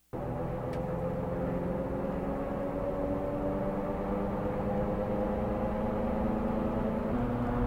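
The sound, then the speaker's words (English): Car tire noise: a steady, continuous droning roar with a low humming whine underneath. It starts abruptly and holds level for several seconds, with no voices. “That's the tire. It is. That's a tire noise.”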